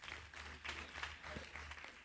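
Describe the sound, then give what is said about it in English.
A church audience gives a round of clapping, faint and steady throughout, over a low hum. “Give the Lord a clap offering, somebody.”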